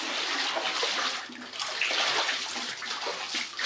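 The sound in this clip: Floodwater pours into a house bathroom after heavy rain in Sakarya, making a loud, continuous rushing and splashing sound with slight surging in intensity and no speech.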